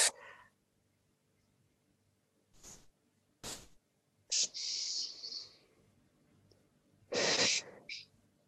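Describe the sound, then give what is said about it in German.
A deep breath drawn in and blown out through the mouth while standing relaxed in a dance warm-up: a long, airy hiss followed by a louder, breathy exhale, with a few softer breath noises around them and no talking. “atme erstmal ganz, ganz tief ein und wieder aus durch den Mund”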